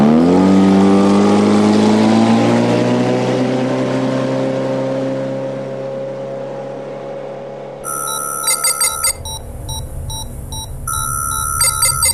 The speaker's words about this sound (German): Wir sind mitten auf dem Atlantik und ihr seid auf meinem Boot.